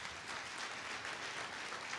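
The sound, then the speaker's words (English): An event audience applauds for the sponsors, a steady, dense wash of clapping that stays fairly quiet and even throughout, with no voices. “So please give them a round of applause as well to our sponsors.”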